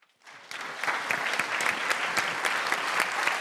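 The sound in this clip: An audience applauds to welcome a guest moderator at a filmmakers' event in the Apple Store Kurfürstendamm. The applause rises out of silence into dense, sustained clapping with no break, moderately loud and steady to the end.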